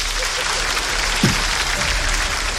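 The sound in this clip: Audience applause from women in a live show crowd, a dense, even wash of clapping that holds at a steady level throughout.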